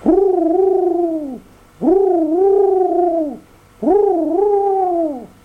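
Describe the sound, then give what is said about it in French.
A large pigeon cooing while hovering with spread wings: three drawn-out, loud, arching calls, each steady before sagging at the end, separated by short even pauses. “vola au-dessus de lui un gros pigeon qui s'arrêta, les ailes déployées, en faisant”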